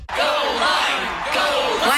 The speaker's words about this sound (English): Cheering for a fruit.